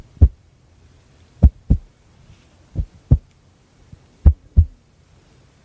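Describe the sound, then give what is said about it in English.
Heartbeat-like thumping produced as an ASMR trigger: low, soft thuds, mostly in lub-dub pairs, repeating at a slow, even pace over near silence. “sounds like a heartbeat. Sounds like a little bit too fast,”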